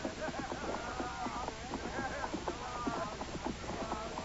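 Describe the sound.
Hoofbeats of three horses carrying riders approach and pass, a steady, rapid clip-clop that stays fairly even in loudness throughout.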